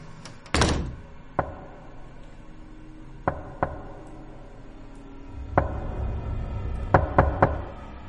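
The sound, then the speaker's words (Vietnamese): Knocking on a house door in a silent night: several sharp, irregular knocks, one louder thump early on, then scattered single raps and a closer cluster of quicker knocks near the end over a low steady background. “Tiếng gõ cửa vang lên trong đêm vắng rõ lắm.”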